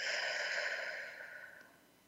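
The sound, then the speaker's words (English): A slow breath blown out through the mouth, lips pursed as if through a straw, during a guided breathing exercise: one long, airy hiss that starts steady and then fades gradually over about two seconds. “So let's take a breath in through the nose, out through the mouth like through a straw.”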